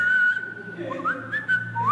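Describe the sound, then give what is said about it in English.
A person whistles as a signal: a held bright tone followed by several short notes that slide sharply upward, clear and fairly loud over a low background murmur. “I started whistling so they knew I was alive.”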